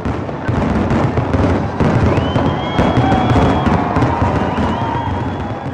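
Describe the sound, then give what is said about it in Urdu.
Fireworks at a nighttime Fourth of July celebration, a loud, continuous barrage of many bangs and crackles, with a high whistling tone running through the middle. “اور رات 9 بجے شاندار آتش بازی۔”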